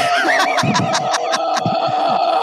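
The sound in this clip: A woman lets out a loud, sustained primal scream that runs through the whole clip, with rapid breathy bursts layered over the steady cry.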